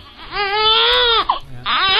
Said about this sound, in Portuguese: Tem até bebê chorando aqui, ó.